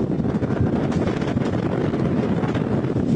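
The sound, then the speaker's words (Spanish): Wind blowing through burning flames during a hillside fire on Cerro San Marcos near Villa de Leyva, Colombia, heard as a loud, continuous low roar with rough buffeting gusts that stays steady throughout. “Es el sonido del viento y las llamas.”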